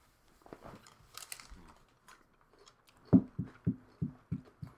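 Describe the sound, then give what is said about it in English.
Chewing on Parmesan garlic chicken wings, faint throughout: a few soft, scattered crunches and bites, then a steady series of rhythmic chewing pulses. “Okay, I've never had Parmesan garlic wings before, so let me get some of this.”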